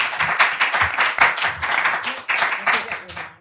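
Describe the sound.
An audience in Baltimore gives a speaker a rousing welcome with applause. Individual claps stand out within a lively, uneven patter that rises and dips before fading at the end.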